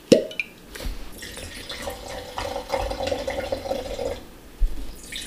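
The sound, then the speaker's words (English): A bottle of Michigan Chardonnay is opened and poured: a short sharp sound at the start, then a steady gurgling, splashing pour lasting a few seconds, with a few drips toward the end. “So I think this is excellent. But let's crack it open and see what you think.”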